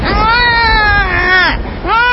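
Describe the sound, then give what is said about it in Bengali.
Crying rises from inside a grave: loud, high, drawn-out wails with wavering pitch, one long cry trailing off, then a brief break before another wail begins. “কবরের ভেতর থেকে কি কান্না শব্দ আসছে?”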